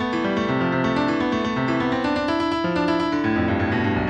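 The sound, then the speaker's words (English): Synthesized musical notes sonify weekly US coal production in the 1980s, one note per week, with higher pitch meaning higher output. The steady, bright tones step rapidly up and down in an uneven, wandering melody, alone and unbroken. “play a single musical note for each week. The higher the pitch of that note, the higher the coal production.”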